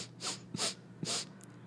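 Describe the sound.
Sniffing a drug sample: three sharp, breathy inhalations in quick succession, followed by a faint fourth puff, loud and with no talk.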